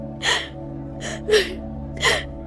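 A woman crying in gasping sobs: three breathy, sharp intakes of breath with quieter shaky breathing between them, over a low steady hum.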